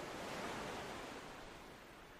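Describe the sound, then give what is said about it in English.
Ocean waves wash onto a deserted beach as the tide slowly comes in. The surf makes a soft, steady, even hiss that stays quiet and eases slightly toward the end. “The tide is slowly coming in.”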